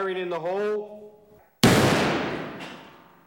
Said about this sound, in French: Lorsque la quantité de poudre est enfin déterminée, la balle test est tirée dans la gélatine.